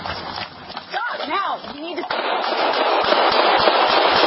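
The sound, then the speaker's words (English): Gunshots ring out in a played police video: several sharp shots fired close together, following a stretch of talk and scuffling, with voices heard throughout. “eight shots? Yeah, several shots.”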